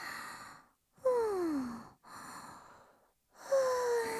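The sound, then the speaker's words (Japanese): Someone smoking a cigarette, drawing in and blowing out smoke in four long, breathy segments separated by short pauses, two of them carrying a soft voiced sigh, with no speech. “てか、タバコ吸っていい？最近吸ってないとイライラすんだよね。”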